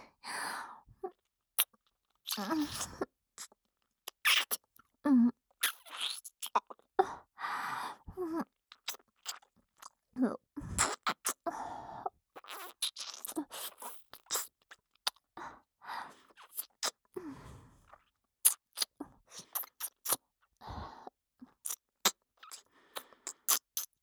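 Wet licking on an ear during a full-body massage: many soft, intermittent slurps and sharp wet clicks in irregular bursts with quiet gaps between.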